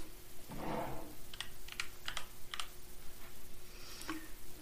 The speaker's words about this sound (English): Okay, I'll type in jack-o'-lantern and then we will see.